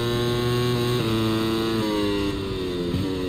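Motorcycle engines in a racing video game: a loud, steady buzzing whine that drops in pitch a few times as gears change, holding constant throughout with no talking.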